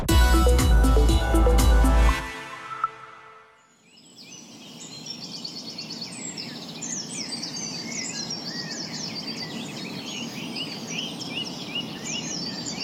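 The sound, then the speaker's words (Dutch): Several kinds of birds sing together in a dense, continuous chorus of high chirps, trills and whistles over a steady low background hiss. The singing starts after a brief loud opening sound and a short quiet gap. “U hoort achtereenvolgens diverse vogels van Marion Schot”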